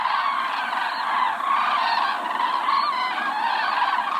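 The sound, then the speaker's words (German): A migrating flock of cranes calling: a dense, continuous chorus of many overlapping honking, trumpeting calls that stays steady and fairly loud throughout, with no voices. “So hört sich ein Kranichzug an. Mitte Oktober ist der alljährliche Höhepunkt des Kranichzugs.”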